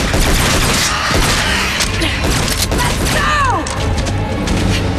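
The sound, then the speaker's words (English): A dense, sustained hail of gunfire rains on demonic creatures clambering onto a ledge in a dramatized action scene. Loud, continuous rattling blasts fill the scene, and a high whine sweeps downward partway through. “Blade sends a hail of bullets into the Reapers as they clamber onto his ledge.”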